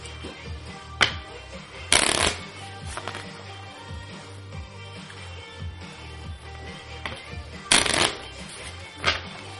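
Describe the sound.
A deck of playing cards being shuffled, with a few crisp riffling bursts separated by quieter handling and soft card movement in between.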